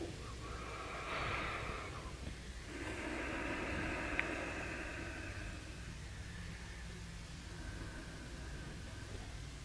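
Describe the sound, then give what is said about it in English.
Generous, deep breathing through the nostrils: a few slow, long airy inhales and exhales, soft and faint, with no talking. “Feeling the breath in the nostrils evenly. Start taking generous breath, expanding the lungs evenly.”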